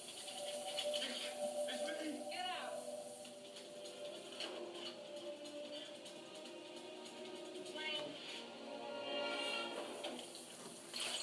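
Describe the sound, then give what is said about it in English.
Fire extinguisher dumping water in a film scene: a faint, continuous rushing, splashing hiss that swells and eases, with voices talking over it. “That fire extinguisher is really dumping a lot of water on this.”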